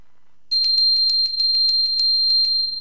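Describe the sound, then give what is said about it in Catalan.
A bell rung to start the first round: after a brief silence comes a long run of rapid, evenly spaced, bright metallic strikes that ring loud and steady to the end. “Primera campana.”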